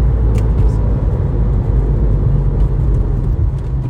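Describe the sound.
Continuous engine drone and road rumble from a manual-transmission car with sticky tires being driven. The sound is loud, steady and low-pitched throughout, with no talk.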